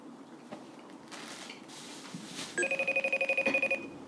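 Electronic telephone ringing while a listener is being dialed for a live call, heard as a rapid warbling burst of many quick pulses with bright, steady tones, starting after faint background rustle and continuing to the end.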